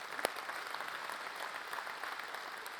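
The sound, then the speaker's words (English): An audience at a church service applauds to welcome those joining, a steady, even wash of clapping that holds at the same level throughout. “Can we give everybody a hand who's joining us?”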